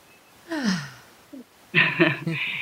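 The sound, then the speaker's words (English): A person breathing deeply during a guided relaxation exercise: a soft voiced sigh that falls in pitch, a short pause, then a longer breathy rush of air, all fairly quiet with no talking. “Okay, take another deep breath.”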